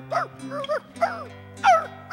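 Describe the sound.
A performer's voice imitates a dog during a storytelling act at a live concert: a few short, whiny yelps and whimpers with bending pitch, spaced irregularly over a faint steady hum.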